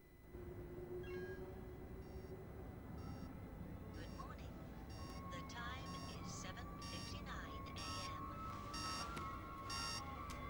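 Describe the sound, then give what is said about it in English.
A TV alarm going off in a London bedroom wakes a sleeping man, faint repeated electronic beeps in short clustered bursts, with a voice speaking over them. “Theo is woken by his TV alarm.”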